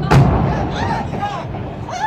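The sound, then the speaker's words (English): A single heavy boom bursts at the start as a building in Gaza City is destroyed by bombardment. It is sharp and loud, then gives way to a lingering low rumble while a voice speaks. “On Wednesday, a reporter in Gaza captured the moment a building was destroyed.”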